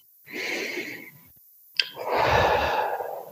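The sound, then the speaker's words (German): A slow, deep breath drawn in through the nose, then, after a brief pause, a longer and louder breath pushed out through open lips during a guided breathing exercise; both are soft airy whooshes with no voice. “Und dann atme hier einmal tief durch deine Nase ein und durch deine geöffneten Lippen atme aus.”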